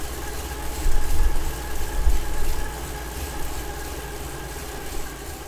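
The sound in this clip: A Drivo smart bike trainer gives a low, whirring moan under hard pedalling up a short climb in a race, a steady drone that swells in a few surges early on before settling at a moderate, even level.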